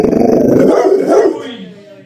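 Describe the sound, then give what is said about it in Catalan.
A German shepherd growls and barks in a throaty, rumbling snarl with rough bark bursts, loud at first and trailing off into a fading low growl. “En Tigre és el gos llop que tenen a casa la família Barletani.”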